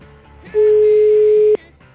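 Ringback tone on a telephone line during an outgoing call: a single steady, loud beep lasting about a second, with quieter low sound before and after.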